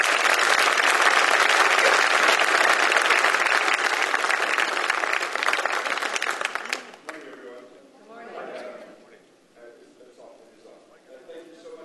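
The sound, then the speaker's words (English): Applause welcomes a pastor to a morning gathering: a dense, steady clapping that holds for about seven seconds, then drops away as a man begins talking. “Let's all put our hands together and welcome Pastor Gary Rivas here this morning.”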